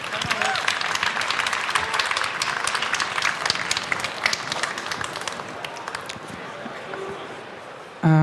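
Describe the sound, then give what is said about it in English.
Sustained audience applause welcomes a speaker onto a conference stage. Dense, steady clapping stays at an even, fairly loud level for the whole stretch. “Give her a warm hand.”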